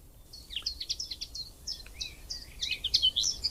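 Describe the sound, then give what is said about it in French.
Common linnet song: many high, quick twittering and chirping notes in a continuous, fairly faint run over a low steady background hiss. “Et voilà la linotte mélodieuse. Un chant mélodieux avec des notes aiguës similaire au chant du verdier ou du chardonneret.”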